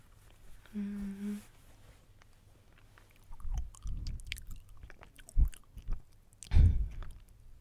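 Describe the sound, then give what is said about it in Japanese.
Chewing on a young, firm banana gives a few crisp, crunchy bites in an uneven burst of moist chomps after a quiet start. “シャキってバナナの擬音でシャキっておかしいかなって思うんですけど、シャキシャキシャキっていうの、若い感じの美味しいやつです。”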